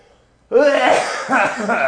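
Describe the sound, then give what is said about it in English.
Harsh coughing from a person struggling with a lingering cough bursts in after a short quiet moment and continues loudly and raggedly for over a second, voiced and rough. “Like I can't shake this cough.”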